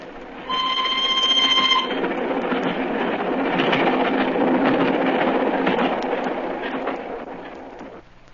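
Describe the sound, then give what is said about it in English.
A single special railway carriage thunders past as a loud, sustained rumbling roar that starts abruptly, with a high ringing tone over the first moments, then holds steady before fading toward the end. “As we hid behind a pile of luggage at Canterbury, we saw the single carriage of the special go thundering past us.”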